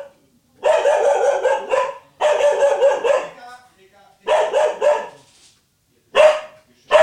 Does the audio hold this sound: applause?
no